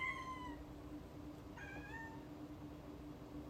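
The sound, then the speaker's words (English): A cat meows twice, one harmonic meow at the very start and a second, slightly wavering one about midway, both clear over a low steady background hum. “What a good meow.”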